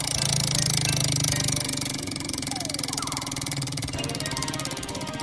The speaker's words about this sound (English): All right, let's go and spin the wheel.